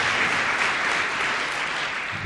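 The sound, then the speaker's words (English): Warm, dense applause from an audience at an afternoon recognition event, a steady wash of many hands clapping at even loudness throughout. “Let's give them another round of applause for coming out and sharing an afternoon with us as well.”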